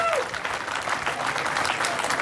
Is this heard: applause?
yes